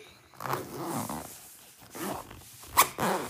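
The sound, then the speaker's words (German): Zipper pulls and soft rustling as things are packed into a pencil case. The handling comes in a few uneven bursts, with one sharp, bright zip or click near the end. “ich mache erstmal mit dem Mäppchen. Weil ich gerade mein Mäppchen so sehe. Alles kurz einpacken.”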